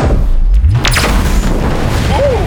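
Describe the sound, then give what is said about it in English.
Sci-fi energy weapon blast from a weapon that draws energy from its surroundings and fires it back: a loud booming discharge with a rising whoosh, then a short tonal chirp near the end. “they've adapted their wireless charging technology to induct energy from their environment and then blast it back to you.”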